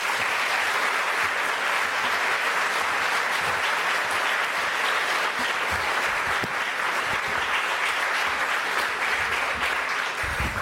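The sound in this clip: Sustained audience applause welcomes a professor arriving to give a lecture at the LSE. Dense, even clapping holds at a steady level for about ten seconds with no voices over it.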